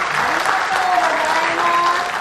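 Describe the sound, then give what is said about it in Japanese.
Audience applause at a live quiz event, a dense, steady clapping that fills the whole clip at an even, fairly loud level. “×だと思う方は拍手お願いします。”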